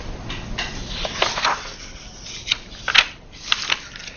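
Sheets of paper rustle and flap as someone searches through them for another page, with irregular crisp swishes and a few sharper snapping peaks, no talk.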